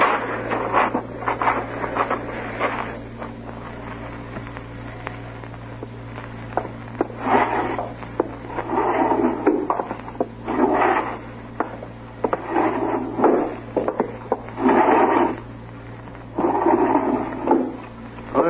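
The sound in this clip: Wooden drawers of a bureau slide open and shut during a search, with many short scraping and knocking bursts, some louder than others and separated by brief pauses.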